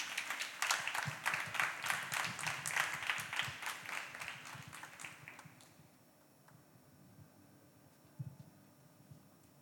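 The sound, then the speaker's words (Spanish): Audience applause at a live music set in Buenos Aires: dense, steady clapping for about five and a half seconds, then it stops abruptly and leaves only faint background noise with a soft thump near the end. “Un fuerte aplauso, por favor”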